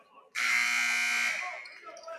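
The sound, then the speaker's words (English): A shot clock buzzer blares at a basketball game. The loud, harsh, steady tone holds for about a second before fading into quieter sounds. “Light around the backboard when the buzzer went off.”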